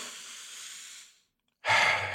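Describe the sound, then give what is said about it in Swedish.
A deep breath: a long, soft drawn-in breath, a short silent pause, then a louder, fuller breathy exhale like a sigh, heard alone without talk. “Så tog jag ett djupt andetag. Så här.”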